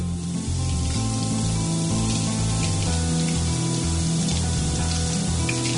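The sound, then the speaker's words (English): Hot milk pours steadily over bread, a continuous liquid splashing and trickling at an even, fairly loud level, with no talk. “And now we're going to pour this hot milk on top of the bread.”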